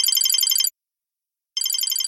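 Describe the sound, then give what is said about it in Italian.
A mobile phone ringtone sounds in two bursts of bright, high, warbling electronic tones, separated by a short stretch of silence. “Era il mio cellulare che squillava.”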